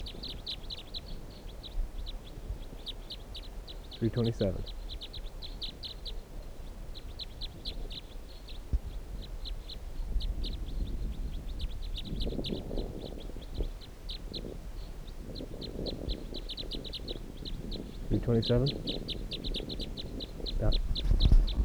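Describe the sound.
Bird chirps come in quick, high, thin bursts repeated throughout, while a voice speaks briefly at a few points.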